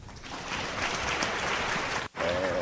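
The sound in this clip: Audience applause welcoming a dermatologist to the stage for a pediatric dermatology lecture, a dense, even patter lasting about two seconds before it cuts off abruptly and a voice begins.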